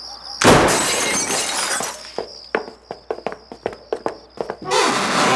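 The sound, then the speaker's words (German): A broken basement window being forced open, with a loud crash of shattering glass, then a run of sharp crunching clinks as shards break and fall, ending in another burst of breaking glass. “Da, das Kellerfenster ist kaputt. Ja, das sehe ich, aber da kommen wir nicht rein. Los, aufbrechen!”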